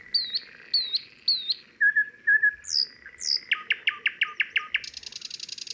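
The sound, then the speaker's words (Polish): Chaffinch and nightingale song: bright, high chirps and whistled phrases repeat in quick bursts. Later they turn into rapid trilled runs and a fast buzzing rattle near the end, clear and fairly loud with no talk. “Teraz pora na ziębę i słowika.”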